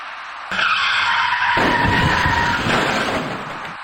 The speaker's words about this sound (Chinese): 然而就在这时，一起相撞事故发生了。您注意看画面中箭头所指的那辆厢式货车